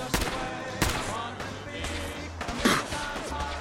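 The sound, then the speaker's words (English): Gunfire in a video game set at a toy factory: a few sharp, loud shots that crack out irregularly over busy background game noise. “Yeah, who's shooting me?”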